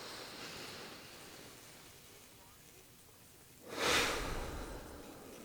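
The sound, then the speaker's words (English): A single deep breath arrives as a soft, airy rushing swell near the end, rising out of faint steady hiss and fading again. “Let's all take a moment, actually, right now, and take a very deep breath together.”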